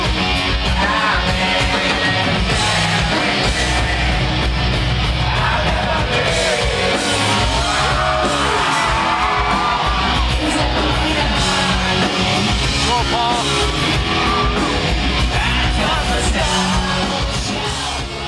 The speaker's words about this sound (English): That recording was obviously made by somebody in the audience with a mic trying to catch the music as best as they possibly could. Yeah, it is raw, and it's more than a little lo-fi